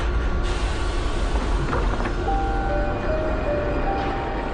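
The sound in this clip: A train pulling into a station gives off a steady, heavy rumble that holds at an even loudness throughout, with faint thin whines above it and no voices.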